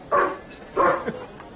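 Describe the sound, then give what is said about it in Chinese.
A voice imitates a dog barking, as if a dog is blocking the door of a newly opened Shandong tavern: two loud, harsh woof-like barks separated by a short pause, with a softer trailing sound after the second. “恶狗挡门，我进不去呀”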